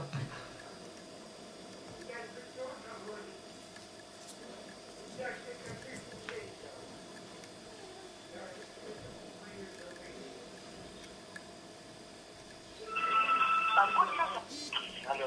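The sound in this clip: Telephone line while calling a number: a faint, steady line hum with soft ticks, then a louder burst of electronic tones near the end.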